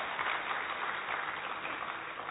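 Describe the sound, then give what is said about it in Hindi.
Audience applause for a guest speaker at a gathering, a dense, steady wash of clapping that holds at an even level from start to finish and sounds somewhat muffled. “एक बार एक जोरदार तालियां हमारे करुणाकर भाई जी के लिए।”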